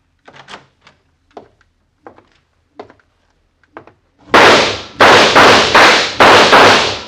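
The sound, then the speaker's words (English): Gunshots fired into bedding as a radio drama effect: a run of several loud, heavy, muffled bursts in quick succession, preceded by a series of quieter scattered taps and thumps. “An assailant, features obscured by the dark, empties his gun into the bedding.”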